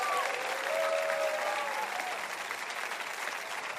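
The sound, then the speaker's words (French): A church audience claps and cheers for the Lord. Dense, steady applause carries a thin, held shout over it during the first two seconds, then eases slightly toward the end. “Poussez un cri et acclamez le Seigneur avec moi.”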